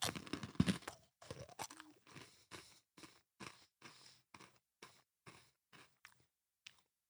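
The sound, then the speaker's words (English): Crisp crunching as someone bites into and chews a cracker and ice cream sandwich: a steady series of many distinct crunches that gradually grow softer and more spaced, faint and alone. “All right, I'll just eat this little piece. Oh my gosh, it's so messy. I'm getting everywhere. All right, so it's this little piece, a little bit of cracker, a little bit of ice cream. Here we go.”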